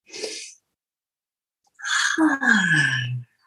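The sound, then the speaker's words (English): A deep breath: a short, airy inhale, then a pause, then a long voiced sigh out whose tone falls steadily in pitch as it fades. “Let's take a breath.”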